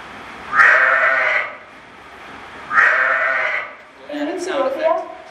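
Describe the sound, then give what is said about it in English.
Sheep bleating, as heard among sheep and goats kept in Ethiopia: two long, loud, wavering bleats with a pause between them, followed by a shorter, lower, uneven bleat. “And the sheep sounds like this.”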